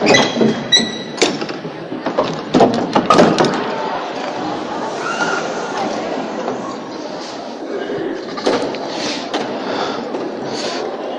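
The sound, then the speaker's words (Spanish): The heavy side doors of a church open onto a street before a Holy Week procession, with a burst of clunks and clatter at the start. A steady murmur from the crowd waiting outside follows. “Ahora ya esperamos a, escuchar cómo se abren las puertas lateral de Cristo Rey, la puerta que da a la calle San Carlos. Se cuela el murmullo de la gente que lleva ya un buen rato esperando en la puerta.”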